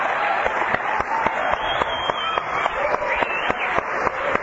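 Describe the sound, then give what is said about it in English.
Audience applause welcomes a new basketball and volleyball coach at a 1987 school welcome-back gathering: steady, dense clapping from many hands runs throughout without a break. “Please stand up and let us give you a hand.”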